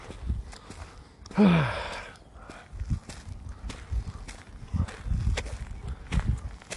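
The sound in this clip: Footsteps of someone walking on a walk, heard as a series of soft, uneven low thuds at a loose pace, with a few louder steps standing out from the rest.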